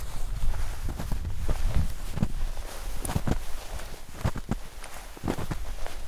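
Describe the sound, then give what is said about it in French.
Slow footsteps crunching through 5–6 cm of snow on a glacier, one walker following a guide's tracks; soft, irregular steps over a steady background noise. “J'essaye de marcher dans les pas du guide avec 5-6 cm de neige sous les pieds et on marche plutôt lentement”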